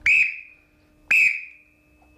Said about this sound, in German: Ja, scharfe Trillerpfeife. Gibt's die noch? Ja, die gibt's noch. Das war tatsächlich so eine schwarze kleine Trillerpfeife.